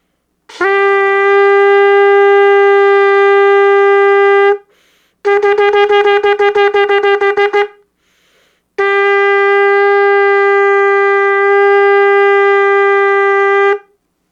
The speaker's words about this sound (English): Every time you hear the shofar, don't only listen for the individual sound, but also pay attention to the flow of the phrase.